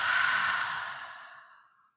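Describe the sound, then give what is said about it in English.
One long, breathy exhale, like a deep relaxing sigh out through the mouth, starts strong and gradually fades to silence over about two seconds. “take a really deep breath in through the nose and out through the mouth.”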